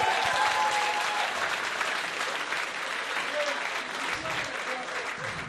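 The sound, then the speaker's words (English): An audience applauds with dense, steady clapping that continues at an even level for the whole stretch. “Ladies and gentlemen, give Bryn a round of applause.”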